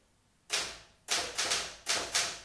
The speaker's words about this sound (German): Ja, eine Remington. Was machen Sie denn da? Bisschen tippen.